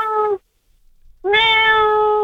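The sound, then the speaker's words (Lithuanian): A cat meows twice with clear, tonal cries. A short meow comes first, then a pause, then a longer, louder, sustained meow. No voices are heard. “Nu, ta prasme, tikrai katino garsas.”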